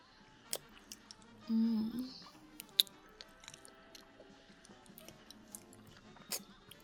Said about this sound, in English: Are you sure you wouldn't just like to suck them? Like this?